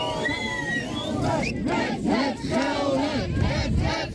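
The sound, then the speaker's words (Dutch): Crowd loudly booing and chanting at a protest against a hospital closing its acute obstetrics ward: many voices shout together in surging, rhythmic waves, loud and continuous throughout. “Luid boegeroep, red het Gelre, roepen ze.”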